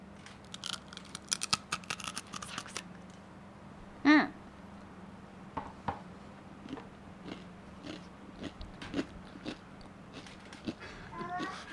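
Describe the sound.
Biting into layered rice crackers filled with soft caramel: one sharp, loud crunch stands out midway, with a few softer crisp crackles and clicks scattered before and after it.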